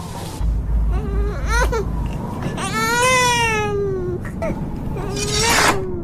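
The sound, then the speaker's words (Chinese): Infant crying in a martial-arts drama scene at a small inn: a few loud, high, wavering wails with a low rumble in the first seconds. “公子啼哭，令你分神了。先照顾孩子吧，咱们改日再战。”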